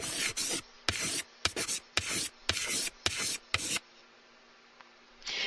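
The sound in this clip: A pen scratches across paper as a budget is written down, in a quick series of short, rough strokes, then a brief pause before another stroke begins.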